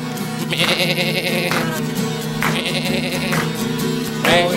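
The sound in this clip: Goat-like bleating from a 1970s live show rises three times as long, wavering, nasal cries above a steady band accompaniment.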